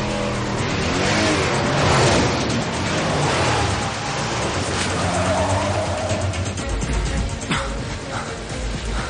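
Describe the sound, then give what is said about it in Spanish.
A car driving off quickly, its engine roaring hard under acceleration. The loud, dense rush holds steady for the whole stretch with no break. “Suben al coche y huyen rápidamente.”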